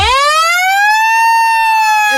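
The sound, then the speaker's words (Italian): A siren sounds as a countdown reaches zero. It is a single loud, harmonic-rich tone that sweeps upward at the start and then holds steady to the end, with no talk over it. “parte un countdown. Ok, quindi è 30, 30 29, 29, 28. E poi a 0 la sirena.”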